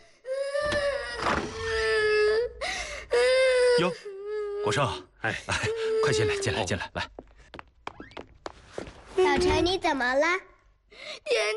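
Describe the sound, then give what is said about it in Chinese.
A child crying in loud, wavering wails and sobs, broken into several bursts separated by short pauses. “谁哭了？”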